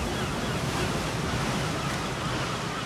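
Sea waves at the seaside: a continuous roar of surf washing without pause, with wind buffeting throughout.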